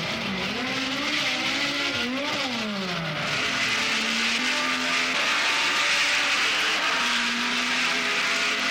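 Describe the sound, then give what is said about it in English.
Grand Prix racing cars roar away at the start of a race at Brands Hatch: a loud, dense engine drone whose pitch rises and falls as the cars accelerate and shift gears. “And they're away. The race is over 80 laps on the 2.65 mile circuit. That's 212 miles. Two of them make an inauspicious start.”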